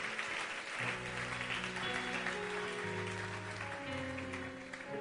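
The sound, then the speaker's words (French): An audience applauding during a church service, a soft, steady wash of clapping that runs throughout, with sustained held tones underneath. “On peut acclamer le Seigneur, notre Dieu.”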